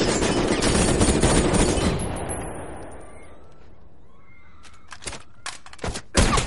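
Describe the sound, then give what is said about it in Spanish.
Sniper rifle fire riddling a car in an action thriller: a loud, dense burst of noise fades out over a few seconds, then a short quiet gap gives way to several sharp, separate gunshot cracks. “El francotirador carga y acribilla el vehículo.”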